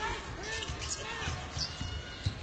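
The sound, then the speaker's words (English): A basketball is dribbled on a court during a game, with a few dull, thumping bounces heard under steady play-by-play talk. “Price again off the dribble, and that one he got to go.”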